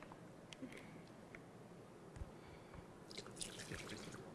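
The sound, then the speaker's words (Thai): Faint trickling and dripping as water is added slowly to a sand and lime mortar mix, a quiet, steady wash with a few soft splashes. “เวลาเติมน้ำเราจะค่อยๆเติมนะคะเติมให้มันค่อยๆซึมเข้าไปในวัสดุผสมของเรา”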